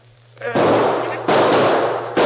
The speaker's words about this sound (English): They're shooting over our heads now, but if they drop their fire, we're trapped.